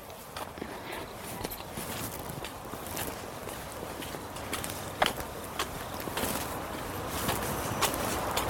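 Footsteps of someone approaching, many light, evenly paced steps over a steady hiss that grow slightly louder toward the end.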